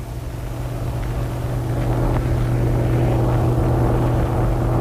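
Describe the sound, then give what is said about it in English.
A heavy tractor-trailer truck pulls up for a check, its engine giving a steady, loud, low droning rumble with a constant hum that swells slightly and holds throughout. “A heavy tractor-trailer unit just pulled up for its check at the punt.”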